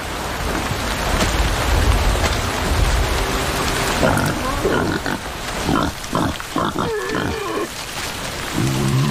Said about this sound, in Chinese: 野猪有时会为争夺食物发生争执